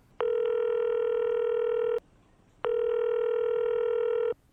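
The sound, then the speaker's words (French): Telephone tones as a call is dialed: two long, steady beeps separated by a short pause, over a faint background hiss. “pour nous en parler plus en détail, je vais appeler monsieur Aline Ben Saïd”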